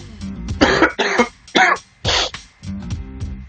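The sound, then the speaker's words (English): Chesty coughing from someone with a week-long cough: four loud, harsh coughs in quick succession, with quieter throat sounds before and after. “Chesty cough. Can't get rid of it. I've had it for about a week.”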